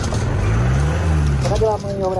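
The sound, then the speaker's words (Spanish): Firefighters' vehicles working wildfires: a loud, steady engine rumble drones low and heavy, with a short burst of voices near the end. “Ese era el sonido de los bomberos.”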